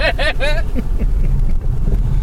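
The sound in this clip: A car driving along a street gives off a steady low engine and road rumble. A brief voice is heard at the start, and the rumble continues evenly throughout.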